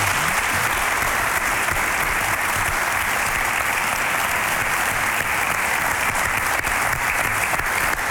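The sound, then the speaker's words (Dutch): Studio audience applause: dense, steady clapping from many hands that fills the whole stretch at an even, full loudness without a break. “Er mag rust een applausje van de studio.”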